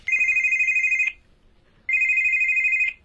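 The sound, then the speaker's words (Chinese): A mobile phone rings with two bursts of a bright, high electronic trill, each about a second long, separated by a short silent pause, with no talking. “乔丽娜刚走出李希涛的家门，她的手机就响”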